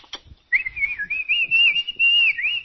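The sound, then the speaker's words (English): A person whistles in imitation of a shepherd calling sheep: one long, high, continuous whistle that wavers and dips in pitch, sounding loud and alone after a brief soft noise at the start. “the shepherd goes along and he whistles and he calls and all those sheep come running.”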